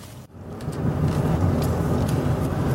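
Car driving, heard from inside as a steady low rumble of road and engine noise that holds at an even level throughout, with no voices.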